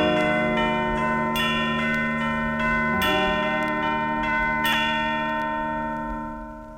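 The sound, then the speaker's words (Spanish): Bells ringing the hour of six o'clock, with repeated struck tones layered over long, sustained resonant ringing that holds steady and then begins to fade at the end. “Las campanas dan din don, te lo dicen en canción.”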